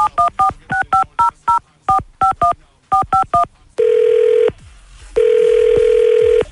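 A touch-tone phone keypad dialing a number: many quick beeps in short clusters, followed by two long, steady ringback tones as the call connects.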